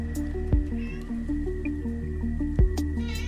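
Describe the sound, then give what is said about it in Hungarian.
A cat meows in a video game where the player controls a cat. Tonal cries come in a stepped pattern, with two sharp knocks mixed in. “Mit csinálsz, cica?”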